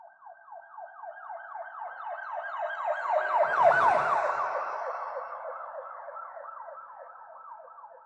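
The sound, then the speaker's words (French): A wailing siren from a passing shuttle vehicle, sweeping rapidly up and down in a steady cycle, swelling to a loud peak with a low rumble midway, then slowly fading. “Une navette de Crops le dépasse, toute sirène dehors.”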